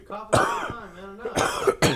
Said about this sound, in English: I need to clear my throat.